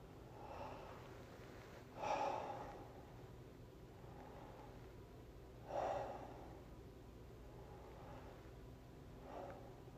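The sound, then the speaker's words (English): Three slow, deep breaths close a guided meditation. Each is a soft, airy swell spaced a few seconds apart, faint over a steady low hiss, with no voices. “we'll close the meditation by taking another 3 deep breaths as we did at the beginning.”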